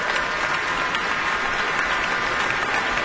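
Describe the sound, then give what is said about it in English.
A concert audience and the orchestra applaud together as the conductor and soloist take their bows, a dense, even wash of clapping that holds at a steady level with no voices. “and the applause both from the audience and from the orchestra.”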